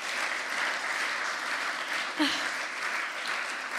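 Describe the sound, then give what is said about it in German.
Audience applause at a Christian church gathering: many hands clapping in a steady, dense patter that holds an even loudness throughout, with one brief louder burst partway through. “ich finde, das ist ein Applaus wert”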